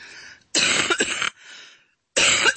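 Harsh coughing from a person bothered by allergies: a few loud, raspy bursts separated by short pauses, with no talking.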